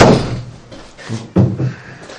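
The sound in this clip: A door being closed: a heavy slam at the start, followed by two more dull thuds, with no talk over them.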